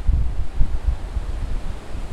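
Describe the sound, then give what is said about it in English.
Wind picking up on a mountain ridge, heavy low rumbling gusts buffeting the microphone in irregular pulses with a soft airy hiss above. “We start west, going downhill for the first time all day, and the wind picks up.”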